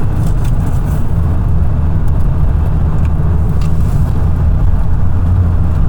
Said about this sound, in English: It's because I am driving. So every once in a while something happens and I like stop talking because I'm trying not to like wreck.